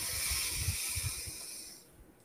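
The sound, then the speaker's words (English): A deep inhalation taken during a group breathing exercise: a steady, airy hiss lasting just under two seconds that fades away at the end. “And everyone just taking a nice, nice big deep breath.”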